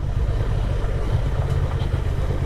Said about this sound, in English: I'm ducking out the way of the branches, just letting it coast down, engine braking.